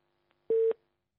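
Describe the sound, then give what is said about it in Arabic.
A telephone tone sounds after a call is cut off: one short, steady, pure beep lasting about a fifth of a second, then the brief start of another tone at the very end, with silence between. “قد انقطع الاتصال”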